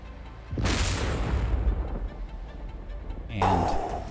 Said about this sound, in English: As it makes contact with the spindle, the bag explodes.